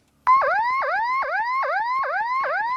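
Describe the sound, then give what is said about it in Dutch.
A siren on a silver all-steel boat wails in rapid repeating whoops, each tone dropping sharply and then sweeping upward, about seven cycles in a row, loud and steady with no voices. “Jouw zilveren boot. Helemaal van staal. Zit er ook nog een sirene op? Ja.”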